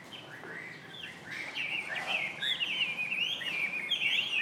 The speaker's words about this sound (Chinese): 这里可以听得出声音的环境，有小鸟在叫，环境是还可以的哦。